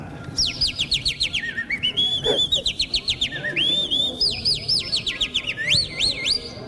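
Mouth-whistled imitation of a pet bird's song: bright, rapid warbling trills and swooping high chirps that run almost without pause for several seconds, loud and clear over a faint background.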